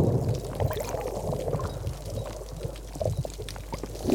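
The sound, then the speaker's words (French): Surf washes against rocks on the coast near Marseille. It makes a continuous churning, gurgling wash with scattered splashes, dipping slightly in the middle and swelling again toward the end. “C'est le bruit du ressac sur les rochers.”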